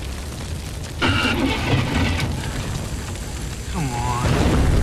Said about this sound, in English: Swerving to avoid a fire truck, Ryan hits a stationary vehicle and plows into a shop front.